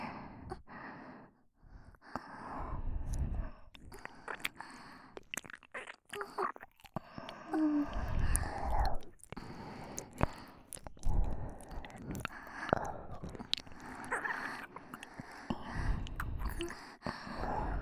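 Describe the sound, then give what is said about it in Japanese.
Wet ASMR ear-licking mouth sounds: many soft, irregular licks, smacks and breaths, quiet and without speech. “私は腕のあんまを続けたまま、耳なめをさせていただきますね。”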